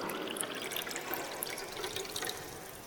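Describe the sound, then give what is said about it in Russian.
Water poured quickly from a carafe into a glass, a faint continuous splashing trickle with bright bubbling, steady for a few seconds. “Йен берет графин, быстро наполняет стакан.”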